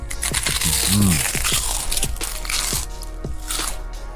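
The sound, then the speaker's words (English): Crisps cooked in coconut oil being eaten, with many sharp, dry crunches in a steady, uneven run over a constant background. “Was that a good idea to eat my crisps in the middle of the advert?”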